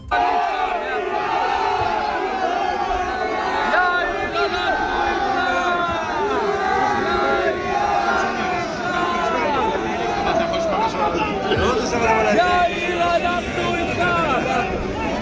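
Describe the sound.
Protesters shout and yell in a dense crowd during overnight riots in Modiin Illit, largely yeshiva students and married Torah scholars from Haredi cities. The loud, overlapping clamor of many voices continues without a break for the whole stretch.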